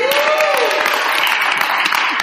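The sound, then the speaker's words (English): An audience at an evening panel event applauds, producing loud, dense, continuous clapping throughout with a brief whoop near the start. “Everybody give a big round of applause to the lovely and talented Edith.”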